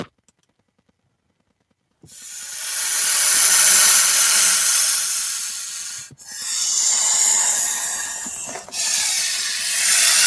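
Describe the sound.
Hissing smoke as a person takes a hit: after a stretch of silence, three long, loud, breathy hiss bursts follow, each separated by a brief break.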